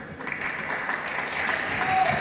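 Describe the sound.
A church audience applauds, a steady wash of many hands clapping that grows slightly louder toward the end.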